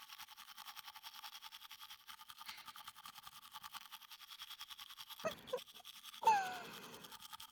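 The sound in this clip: A toothbrush scrubbing as someone brushes another person's teeth, a soft, fast, rhythmic hiss of repeated strokes that runs steadily, then a few louder brief noises near the end.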